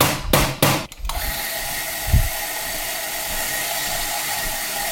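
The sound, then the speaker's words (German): An espresso machine's gear pump starts up. A few short clunks lead into a steady, even whirring hum, with one low thump along the way. “Und los geht's. Das ist die Zahnradpumpe, die wir hören. Hat immer so eine Anlaufzeit.”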